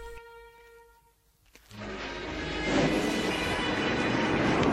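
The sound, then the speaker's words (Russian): Railway station at Losino-Ostrovskaya: a steady tonal hum gives way to a train's rushing, rumbling noise that builds and grows steadily louder, then holds. “Железнодорожная станция Лосино-Островская.”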